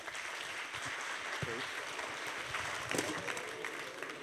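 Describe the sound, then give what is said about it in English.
Audience applause welcoming a speaker to the stage: steady, dense clapping from a crowd that carries on throughout, with a few faint voices showing briefly underneath. “So let's put our hands together and welcome Bill Cusack.”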